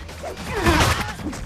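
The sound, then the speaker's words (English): A person is kicked back against equipment during a fight, producing a brief, broad crash with a clattering, rumbling impact that swells to a peak and fades within about a second. “Cyrax kicks Jax back against some equipment.”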